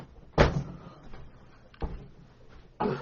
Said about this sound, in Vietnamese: Tôi giảng mà cụ mở cửa âm thanh nó nghe đó.